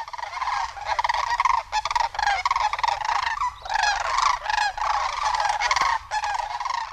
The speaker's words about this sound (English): Look closely at the two sandhill cranes you see, usually a mated pair standing together, making this sound, a unison call.